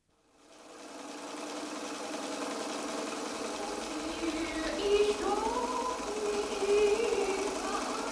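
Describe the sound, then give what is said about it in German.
Steady whirring of a sewing machine stitching curtains for a music room, a continuous mechanical drone that holds at an even level for the whole stretch after a quick fade-in. “Ich nähe Gardinen fürs Musikzimmer.”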